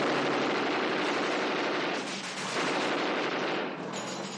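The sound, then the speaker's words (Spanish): Gunfire erupts in a 1970 war film as Kelly shoots at the enemy, a loud, dense, continuous barrage of rapid shots that eases slightly for short moments before pressing on. “En ese momento, Kelly dispara contra ellos.”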